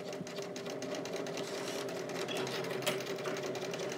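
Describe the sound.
A sewing machine stitches fabric along a zipper up to the slider, with a steady, fairly quiet whirr of rapid needle ticks running continuously.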